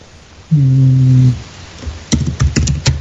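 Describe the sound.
Keys clatter on a computer keyboard as a chat message is typed: a quick burst of sharp clicks near the end, preceded by a short, low, steady humming tone.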